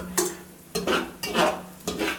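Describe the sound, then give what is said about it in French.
A utensil scrapes and stirs in a saucepan as swollen, butter-cooked raisins are lifted out, giving four short, bright scraping bursts spaced unevenly, with no talk. “Donc là, tu sors les raisins de la casserole qui ont bien gonflé.”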